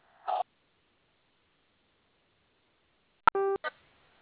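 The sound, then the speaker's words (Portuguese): A telephone keypad tone for the zero key, pressed during an automated credit-offer call: a short electronic beep near the end, set apart by silence from a brief earlier blip and followed by another short sound. “Tecle zero e saiba mais.”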